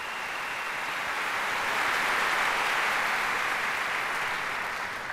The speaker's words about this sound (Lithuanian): Ir aišku, plojimai.